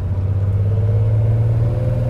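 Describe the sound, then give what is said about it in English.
A small aircraft's engine runs at a steady idle before takeoff, giving a continuous loud low drone with a constant hum and no break throughout. “starts the engine, and then we're ready for takeoff”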